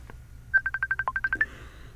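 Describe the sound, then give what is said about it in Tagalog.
Mobile phone ringing with an incoming call, heard as a quick, evenly paced run of many short, bright electronic beeps at one steady pitch, with a single lower beep midway, alone and moderately loud. “Si Nathan tumatawag.”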